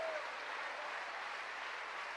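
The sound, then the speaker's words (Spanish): A church audience applauds in praise during a Spanish-language sermon, a faint, steady wash of many hands clapping together that stays even throughout. “¿Cuánto le dan un aplauso al Señor por eso?”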